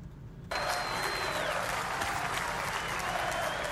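Crowd cheering and applause at Derek Jeter's Baseball Hall of Fame induction in Cooperstown. A dense, steady roar of clapping and shouting starts abruptly after a short quiet moment and continues loudly to the end.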